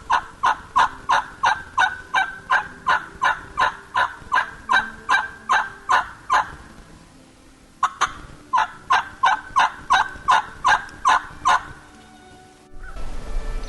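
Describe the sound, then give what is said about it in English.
A hunter works a wild turkey call for fall gobblers, producing raspy, evenly spaced yelps in two long rhythmic runs separated by a short pause. “Listen to how I call. This is what I do to call fall gobblers. Listen to the rhythm and how I call fall gobblers.”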